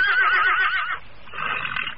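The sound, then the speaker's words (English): A great horse whinnying: a wavering, high-pitched neigh followed by a brief dip and a softer second whinny, heard alone. “To his surprise and delight, the great horse stood up and flicked his ears to and fro, watching Dick carefully. Then he whinnied a little and stepped towards him.”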